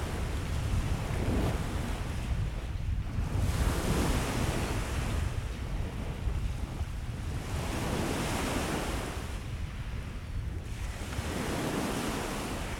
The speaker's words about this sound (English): It's a bit cool out, the wind's hitting your skin.